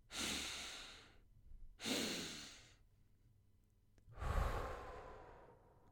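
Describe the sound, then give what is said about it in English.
Breathing exercise with two breathy inhales followed by a longer, heavier exhale through the mouth. The soft rushing airflow is alone, with short pauses between breaths. “take two inhales in the mouth, in the nose, and then exhale through the mouth”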